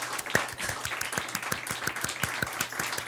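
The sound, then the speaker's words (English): Studio audience applause: steady, moderately loud clapping with dense, sharp hand claps sustained through the whole stretch at an even level. “Yeah, they cut off right there. The studio audience is really good about cutting off right on cue.”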